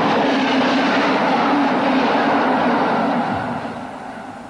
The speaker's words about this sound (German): Die Bahn fährt immer.